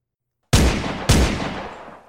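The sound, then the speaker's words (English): Two loud gunshot blasts, each a sharp crack with a long, slowly fading tail. The second shot follows about half a second after the first. “Someone had been shot.”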